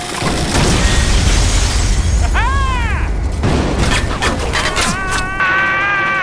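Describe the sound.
A loud explosion blows out a deck's entire electrical supply, sending shrapnel flying. A dense roaring blast holds throughout, with ringing, warbling metallic tones over it.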